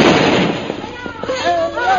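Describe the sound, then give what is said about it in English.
A bomb explodes: a broad, rumbling blast bursts loudly at the start and trails off into rough crackling noise, with voices speaking over the fading roar. “Do you see that bomb coming?”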